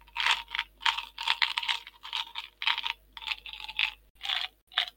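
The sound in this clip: Rattling and clattering of a plastic bottle of gum being shaken and handled, in many quick, crisp bursts with a fairly steady rhythm and short gaps between them. No one speaks.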